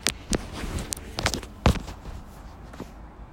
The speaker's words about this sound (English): Dude, the guy is hitting the wall again.